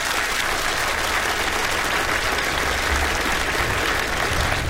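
Audience applause fills the whole stretch as steady, dense clapping, loud and even throughout, with no voices on top.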